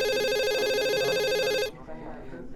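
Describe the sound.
A telephone rings with a loud, steady, buzzy electronic tone for under two seconds, then cuts off abruptly, leaving only quiet background sound.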